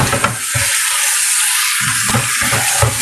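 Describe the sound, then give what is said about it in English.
Steaks sizzling while cooking produce a steady, loud frying hiss that spreads across the whole clip, with soft low crackles and spatters rising and falling beneath it. “we're waiting for the steaks to finish”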